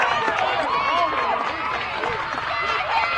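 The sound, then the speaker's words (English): A baseball crowd cheers after a run scores, a steady noisy roar that holds for the whole clip beneath a commentator talking. “That fires up this Stewart's Creek Red Hawk crowd.”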